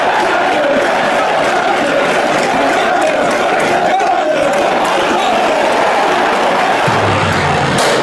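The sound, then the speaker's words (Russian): Football fans in a stadium crowd roar and cheer in a steady, dense wall of noise that holds at a loud level from start to finish. “Болельщики поддерживают, развернули флаг с символикой клуба.”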